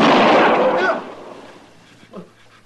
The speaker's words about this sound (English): He's going to shoot.